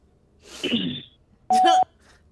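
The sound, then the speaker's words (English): A short, rough throat clearing in a voicemail message, followed after a brief pause by a steady, high electronic beep tone. “You just straight cleared your throat in your voicemail.”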